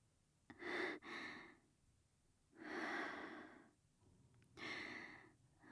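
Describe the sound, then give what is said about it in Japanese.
Deep breathing, soft and faint: a few slow, drawn-out breaths with quiet pauses between them and no talk. “深呼吸、深呼吸。”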